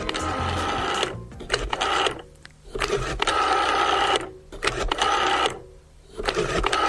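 Telephone number being dialed: a few loud bursts of rapid mechanical clicking and whirring, each lasting about a second and separated by short pauses, with no talk.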